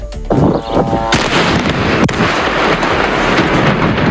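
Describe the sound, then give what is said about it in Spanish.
Explosions from Israeli bombing of Lebanon: a few sharp, heavy blasts and cracking impacts over a continuous loud, rumbling roar, with no voices heard. “Este es el sonido de los bombardeos de Israel sobre el Líbano.”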